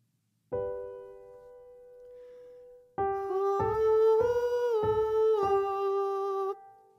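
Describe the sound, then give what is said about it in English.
A piano chord sounds alone, then a light, hooty head-voice 'oo' vowel warm-up follows with piano, moving through a short rising-and-falling five-note pattern of sustained, clear tones. The final note is held before a sudden stop. “Let's get started with a nice and simple oo vowel. Remember to keep a light, hooty head sound. This exercise sounds like this.”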